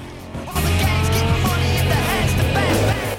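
Two cars, one a Chevy, race along a dusty road with an oil pump nearby. Engines roar in after a brief lull, joined by squealing tires in a loud, sustained burst.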